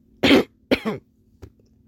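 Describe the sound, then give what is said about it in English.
A man coughs twice, two harsh bursts close together, then gives a short faint third cough. No one talks. “Then Uncle Wayne coughs.”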